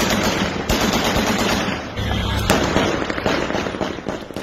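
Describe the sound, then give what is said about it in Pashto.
Celebratory gunfire and firecrackers crackle across Kabul at night, a loud, dense and continuous rattle of rapid bursts and sharp pops that swells and thins without pause. “تیره شپه د کابل په ګڼو سیمو کې د خوښۍ ډزې شوې او اورشیندونکي پټاقې هم هوا ته پورته شوې.”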